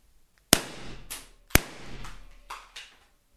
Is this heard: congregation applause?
no